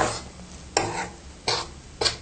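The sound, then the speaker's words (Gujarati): A spoon scrapes and stirs food in a hot pan that has just been taken off the heat, making four distinct scraping strokes with a soft, gritty hiss between them. “તપેલી ગરમ છે એટલે અંદર શેકાશે, એટલે હલાવતું જ રહેવું,”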